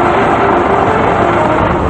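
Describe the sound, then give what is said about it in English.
Red Cross truck driving down a paved highway: a steady, loud roar of engine and tires with no break or change across the short stretch. “The Red Cross truck is moving down a paved highway.”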